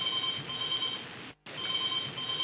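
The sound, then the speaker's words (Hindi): A telephone rings for a caller phoning in to a radio show, giving two long electronic rings of steady tone separated by a brief silent gap. “इस महफिल को और रंगीन बनाने के लिए लेते हैं आज की शाम का पहला कॉल और देखते हैं कौन है हमारे आज के पहले कॉलर और क्या है उनकी फरमाइश।”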